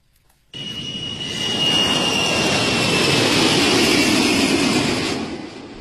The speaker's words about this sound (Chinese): 昨天上午，一架空军运二零运输机从某机场起飞赴韩国，迎接志愿军烈士遗骸回国。